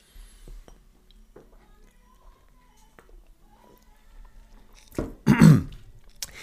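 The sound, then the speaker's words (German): A sip of Fritz Cola being drunk: faint, quiet sounds give way to a short, loud burst of gulping and breath near the end. “das erkläre ich euch, nachdem ich hier ein bisschen von meiner Fritz Cola getrunken habe. Moment.”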